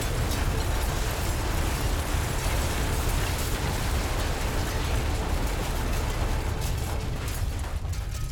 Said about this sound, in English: But they don't have to worry about that as Krakacola crumbles. A giant plume of smoke and dust shoots into the air as it goes down.